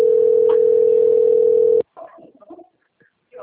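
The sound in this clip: Ringing tone of an outgoing telephone call: one steady, loud, single-pitch tone lasting almost two seconds that cuts off abruptly, followed by faint, muffled, scattered sounds.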